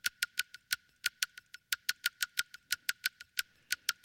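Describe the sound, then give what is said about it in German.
Castanets, the percussion instrument common in Spain, clicking in a quick, lively rhythm: many sharp, bright clacks in short groupings and steady runs, heard alone. “Das sind Kastagnetten. Die gibt's in Spanien ganz oft.”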